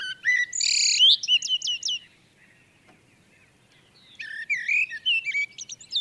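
Birdsong of bright, high chirps and trills comes in two lively bursts separated by a quiet pause, with only a faint background murmur between them.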